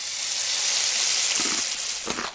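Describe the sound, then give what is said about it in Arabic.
Sea waves rushing in a steady, broad, hissing wash for about two seconds, with a few softer surges near the end. “لحظة، إحنا بعمان، طيب من وين جاي صوت البحر؟”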